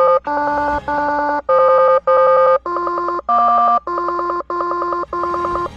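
Telephone tones after a call is placed: a steady run of about nine short, bright electronic beeps at shifting pitches, evenly spaced and fairly loud, with no talk over them.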